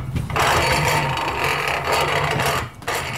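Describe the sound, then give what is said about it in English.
A grinding mill runs unfed, metal turning freely on metal with no pods reaching the grindstone: a loud, harsh, continuous rasping whir that dips briefly near the end. “You hear that mill turning freely metal on metal? That means the pods aren't getting fed through to the grindstone.”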